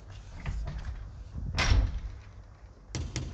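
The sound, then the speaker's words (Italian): A large, heavy front door at the entrance of a Brussels gallery swings shut. Low rumbles and creaks build to a loud thud, followed by a couple of sharp latch clicks. “Una volta chiuso il portone, ci troviamo nell'ingresso, che porta ad un cortile interno.”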